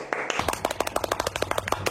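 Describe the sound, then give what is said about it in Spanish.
Applause in response to a host's call: a brisk two-second run of many sharp handclaps in a fairly even rhythm, moderately loud and with no talk over them. “así que un aplauso para todos ellos.”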